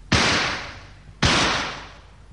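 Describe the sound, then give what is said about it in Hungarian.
Two loud gunshots are fired as a signal from a height above a lake by a 19th-century expedition. Each is a sharp crack followed by a long, fading roar, about a second apart. “Jelzőlövést adok a lentieknek.”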